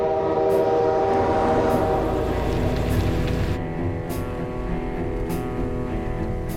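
A passing train gives a loud, steady rumble throughout. Sustained horn tones ring over it.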